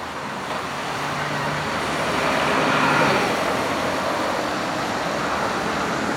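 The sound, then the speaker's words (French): Dense street traffic on Paris's Boulevard Saint-Michel and Boulevard Saint-Germain, where police direct the flow, forms a continuous broad roar of engines and tyres that swells slightly midway, with a low engine hum early on. “Boulevard Saint-Michel, boulevard Saint-Germain à Paris. Les policiers font la circulation.”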